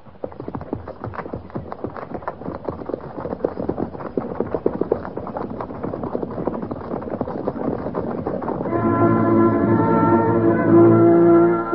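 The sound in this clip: Cavalry horses setting off at a trot on a trail, a steady, rapid clip-clop of hooves running through the whole stretch and growing slightly louder toward the end.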